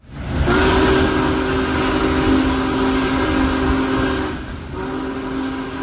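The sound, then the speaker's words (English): Big Boy locomotive 4014 travels from Sayre, Pennsylvania to Owego, New York, with a loud, steady rumble under a sustained tonal horn-like note that breaks off briefly near the end and then resumes. “WVIA News was inside 4014's cab and on the ground as the massive locomotive made its way from Sayre to Owego, where thousands of spectators erupted in cheers as the train arrived.”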